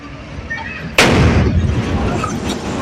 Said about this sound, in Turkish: dumanların yükseldiği pencerede büyük bir patlama meydana geldi. Doğalgaz kaynaklı olduğu öne sürülen patlamanın sesi yüzlerce metre öteden duyuldu.